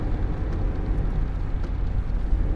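A car driving on the road produces a steady, low rumbling drone. The noise stays even and continuous throughout, with no distinct separate events.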